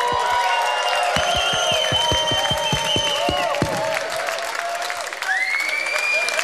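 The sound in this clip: A gig audience applauds and cheers, with bursts of rhythmic clapping and high whistles and whoops over a steady roar of hands.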